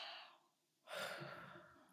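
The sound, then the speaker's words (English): A deep breath taken during a guided reflection exercise, faint and alone, with two breathy phases split by a short pause, the second a louder, sigh-like exhale that slowly fades. “Deep breath.”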